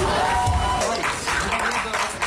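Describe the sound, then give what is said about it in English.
Onlookers clap after a little girl and her father are rescued at sea from a Disney cruise ship near Fort Lauderdale. The applause is steady and dense, and a voice talks over it. “Onlookers clapping as a Disney spokesperson says members of the crew rescued the little girl and her father.”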